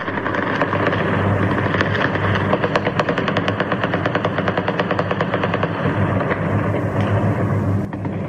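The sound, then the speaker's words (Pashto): Celebratory gunfire fills the night in Kabul, fired by Taliban fighters: dense, loud, rapid automatic bursts run continuously, blending many shots into a steady crackling roar. “مجاهد په خپل ټوټرو لیکل په کابل ښار کې د ډزو غغونه د خوشحالي دي”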